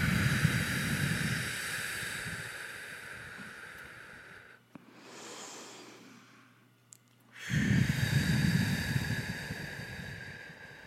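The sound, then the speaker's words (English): Deep breathing during a guided group meditation: a long, loud, breathy exhale, a quieter, softer breath, then a second full exhale that slowly tapers. The breaths are heard alone, with no speech. “So let's all just take some deep breaths.”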